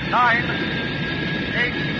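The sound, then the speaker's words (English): Jet engines firing at takeoff give a steady, dense roar with an even, unbroken texture throughout, and a couple of faint whistling tones rise briefly above it. “All jets firing.”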